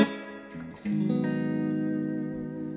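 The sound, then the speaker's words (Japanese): A Stratocaster electric guitar with a reverb effect plays an improvised, clear-toned passage. A few short notes lead into a sustained chord that rings on, fairly soft, with a long smooth tail. “こういう透明感をイメージしたこうリバーブをいいですねかけて”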